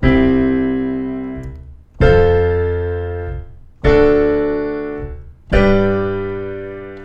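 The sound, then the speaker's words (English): Four piano triads, C, F, D and G, struck one after another at an even pace, each chord ringing full and then fading before the next. “So your chords, your triads, would sound like this.”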